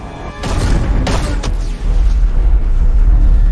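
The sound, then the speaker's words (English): A colony gun fires on a parked collector ship in a video game. A few loud, deep booms burst over a heavy continuous low rumble. “Alright, so the colony gun is shooting at the parked collector ship, and it's taking an emergency takeoff.”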